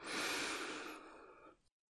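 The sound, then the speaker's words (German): A single deep, airy breath drawn in during a vocal toning exercise. It is soft and breathy, strongest at the start, then thins out and stops abruptly after about a second and a half. “Atme tief ein und mit dem Ausatmen tönst du ein A. Einatmen.”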